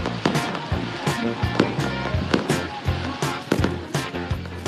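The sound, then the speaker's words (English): Fireworks bursting over center field at a baseball stadium after a game: many sharp pops and crackling bangs in irregular clusters over a steady background rumble. “Fireworks starting to go off in center field as the Shuckers”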